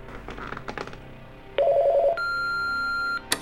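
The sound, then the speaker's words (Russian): A telephone answering machine switches on: a few soft clicks and knocks, then a loud pulsing electronic tone, followed by a steady beep lasting about a second and a sharp click at the end. “Я автоответчик включил.”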